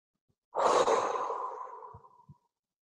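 A single long exhalation during a guided breathing exercise, strong at the start and slowly tapering off over nearly two seconds, soft and airy with no talking.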